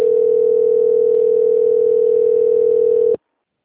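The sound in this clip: A steady telephone tone sounds while a customer call is transferred to quality control: one continuous mid-pitched hum, loud and unbroken for about three seconds before cutting off abruptly.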